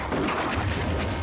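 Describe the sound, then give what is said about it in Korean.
Brief, deep rumbling artillery boom used as a radio-drama battle effect, faint and muffled, with a low roll that lingers through the short burst. “뒤에서 포성이 울리더니 곧 기관총 소리가 뒤섞여 들려왔다.”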